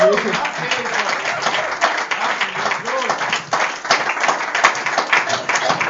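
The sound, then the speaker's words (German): Steady audience applause with dense, continuous clapping throughout and voices mixed in underneath. “Ich denke, wir dürfen den Applaus noch ein bisschen größer machen. Ja, das machen wir mal. Den Applaus.”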